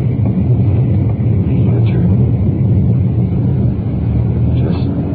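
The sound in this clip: Car driving along a street with its side windows open, about to swing around a corner: a steady, loud low engine and road rumble continues throughout without clear change.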